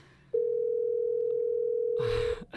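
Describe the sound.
Steady single-pitched telephone dial tone heard after an unanswered call, holding loud and unchanging for about two seconds before giving way to a short burst of noise.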